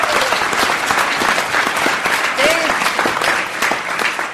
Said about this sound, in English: that was what I call a premature round of applause